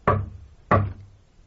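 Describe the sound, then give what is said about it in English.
Two loud, hard bangs on a communicating door, evenly spaced about half a second apart, each with a short ringing decay and nothing else around them. “I'll bang on the communicating door.”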